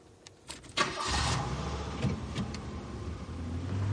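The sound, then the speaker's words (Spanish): A car engine starts on a street after a few faint clicks, then settles into a steady, moderately loud running hum that continues to the end. “Desde la ventana, la niña ve al coche alejarse por la calle.”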